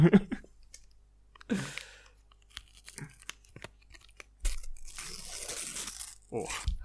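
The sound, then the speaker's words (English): Tearing open a sticker packet: a few crinkly ripping bursts of paper with small clicks and rustles in between, the longest and loudest tear coming near the end. “I fumbled that a little bit, but I really regained it. I've done a bit of a meek tear. I'm not showing much of the stickers.”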